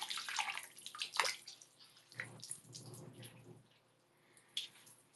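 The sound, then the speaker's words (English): Water poured and splashing in a partly filled bath: a few bursts of pouring with trickles and drips between them, quieter toward the end before one last small splash. “And see, now I can really pour water, like, everywhere, right?”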